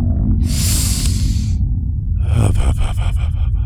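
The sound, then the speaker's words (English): Slow, deep calming breaths: a long, airy inhale followed by a rougher, pulsing exhale, steady and fairly loud against a low background hum. “Can we take a couple more slow breaths?”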